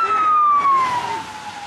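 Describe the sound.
A Norwegian police emergency response unit vehicle's siren wails loudly, a single sustained tone sliding steadily downward in pitch without a break.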